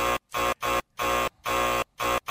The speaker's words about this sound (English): The buzzer's for you, sir.